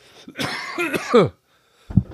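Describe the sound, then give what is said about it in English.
A man coughs: a rough, harsh burst of about a second, then a brief pause and one shorter cough. “Gosh, guys, if it wasn't for the fact that this is a no-edit, one-take podcast, I'd go edit that out. I'm sorry I just coughed on all your faces.”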